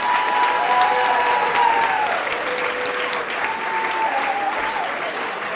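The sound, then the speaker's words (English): Loud, sustained applause from the audience at a joint school summer concert, a thick, steady roar of clapping that holds the whole way through. “give them a huge clap, well done!”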